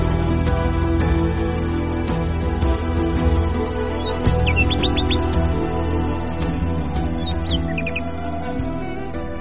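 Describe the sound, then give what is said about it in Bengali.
A bird calls in an odd voice early in the morning around a shared lodging, two short clusters of quick, high chirps rising briefly above a steady, droning musical background. “সাত সকালে ঘুমটা ভেঙে গেল, অন্য কোনো কারণে নয়, একটা পাখি।”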